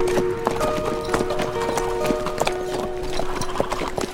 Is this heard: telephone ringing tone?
no